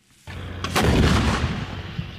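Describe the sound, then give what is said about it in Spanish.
Bombs exploding in Gaza during Israeli strikes on Hamas targets: a deep, sustained rumbling blast with a sharper burst partway through, loud and continuous for about two seconds with no voices. “las bombas siguen cayendo en Gaza.”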